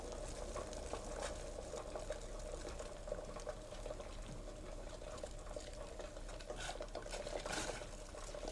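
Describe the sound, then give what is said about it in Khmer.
Soft, steady sizzling of food frying in a pan over lowered heat, an even continuous hiss with no voices. “បន្តមកទៀតគឺយើងដាក់ប្រឡិតរបស់យើងចូលចានៅពេលដែលយើងដាក់ប្រឡិតរបស់យើងចូលគឺយើងបន្ថយភ្លើងបន្តិច”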